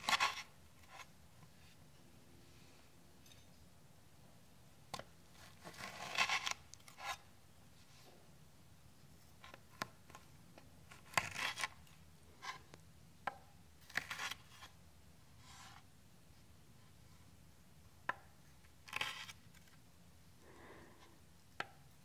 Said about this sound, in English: First, we wash and chop all of our fresh produce.